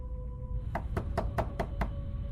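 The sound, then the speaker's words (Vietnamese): Someone knocks on a door six times in quick, evenly spaced, sharp raps after a brief pause, with a faint steady tone lingering underneath. “Tiếng gõ cửa lại vang lên, và lần này tiếng gõ cửa đã mạnh hơn.”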